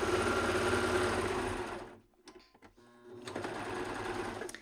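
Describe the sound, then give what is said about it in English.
An overlock serger runs while stitching fabric for kids' leggings, a fast, steady mechanical whir that drops off briefly in the middle and then starts up again at full speed. “I am done using the serger now”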